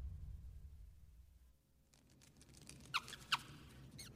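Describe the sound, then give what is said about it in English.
A tiny mouse scurries across a cave floor, making a soft, light patter with a couple of sharp, high squeaks near the end. It is faint overall and heard alone. “Now in a cave, a tiny mouse runs across the floor.”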